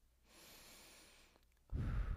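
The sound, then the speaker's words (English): A deep breath: a long, soft, airy inhale, a brief pause, then a much louder, rougher exhale that fills the end. “I just want everyone to take a collective deep breath right now.”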